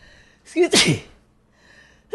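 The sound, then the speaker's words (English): A person sneezes once: a quick gasping intake of breath leads straight into a loud, explosive burst, with quiet background sound before and after. “You don't say excuse me when you sneeze.”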